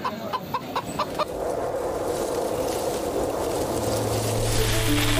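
A few short clucks from a four-year-old rooster at a busy morning market, followed by a steady wash of broad background noise with a low hum joining near the end.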